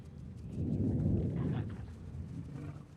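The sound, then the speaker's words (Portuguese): Deep thunder rumbles low and rolling, swelling over the first second and then slowly easing off across about three seconds, with no voices over it. “Me diga que isso foi seu estômago. Não, foi só uma trovoada.”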